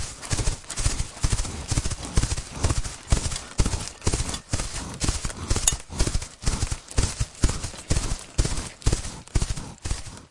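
Hooves of a bay horse being ridden clop in a steady, brisk rhythm, many firm hoofbeats repeating evenly throughout with no voices.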